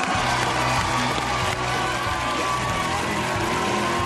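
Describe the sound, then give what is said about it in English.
A studio audience at a TV talk show cheers and calls out with a dense, steady crowd roar that holds evenly without a break. “You hear that booing? No, that's not. That's booing? Not booing. That's the bear caller going.”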